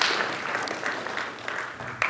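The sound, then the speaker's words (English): Faint, steady applause from a church audience, a soft continuous patter of many hands with one sharper clap near the end. “And you can clap there if you'd like. That's all right.”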